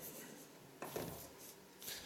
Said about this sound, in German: Ich werde dir eine Skizze aufzeichnen.